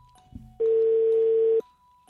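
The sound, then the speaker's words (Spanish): A telephone call being placed. A steady electronic tone sounds for about a second, with a few faint low clicks and thumps just before it. “Márcale al Benechito.”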